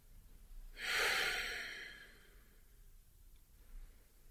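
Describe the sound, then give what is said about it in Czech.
A slow, deep breath drawn in and let out during a guided relaxation exercise. It comes as a single soft, airy swell that fades away gradually, with no talk. “Jdeme na pravou ruku. Nádech a dlouhý výdech.”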